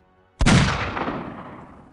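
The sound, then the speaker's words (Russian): An assault cannon fires a single loud, heavy blast with an abrupt onset. The blast fades into a rumbling roar over about a second and a half. “Штурмовая пушка заревела, и взятый на Истване 5 долг был, наконец, выплачен сполна.”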